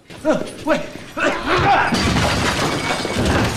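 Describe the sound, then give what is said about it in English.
A table breaks as two people crash backwards onto it in a fight, giving a loud splintering smash that turns into sustained rough, crackling noise. A few short vocal sounds come just before it. “Ryan puts all his strength into kicking against a post, hurling them both backwards onto a table, breaking it.”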